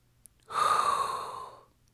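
One quick inhaled breath: a breathy, airy rush that starts sharply and fades gradually over about a second, alone against near silence and preceded by a tiny click.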